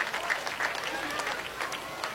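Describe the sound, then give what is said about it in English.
Football crowd applauds and gives a standing ovation at the end of a game, a steady wash of clapping with a few cheers mixed in under a man's voice talking throughout. “the Gearing folks giving their team, giving both teams, or probably more their team, a round of applause, standing ovation for this one”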